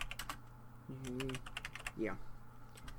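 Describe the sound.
Someone types a note on a computer keyboard, a quiet run of quick clicks and taps, with a few brief bits of speech between them.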